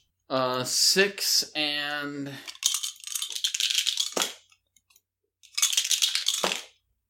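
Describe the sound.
Dice clatter and rattle as they are rolled for damage in a tabletop game, two bursts of scattered clicking that follow a stretch of talking.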